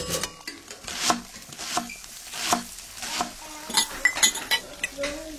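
Kitchen dishes and cutlery clink and knock in a string of light, sharp taps and clatters, faint and with no talk over them.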